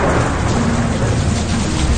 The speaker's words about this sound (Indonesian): Tapi hujan turun sangat deras.